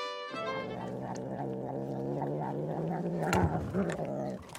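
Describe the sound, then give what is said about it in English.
A cat purring: a steady, low, rumbling purr with a soft rhythmic pulse that continues at an even loudness for the whole clip. “It's the sound of a purring cat.”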